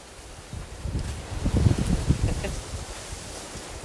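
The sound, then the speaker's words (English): Wind buffets a microphone in low, rumbling gusts that build to a heavier rush in the middle, then ease back into a steady breathy hiss. “Oh, I gotta talk to the wind. Stop. Stop. Just fucking stop.”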